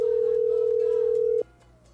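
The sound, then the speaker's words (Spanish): A steady telephone dial tone sounds while a radio call-in line is dialed to reach a listener. The mid-pitched, unbroken hum runs over a low music bed for about a second and a half, then cuts off abruptly. “Así que vamos a marcar ya un oyente.”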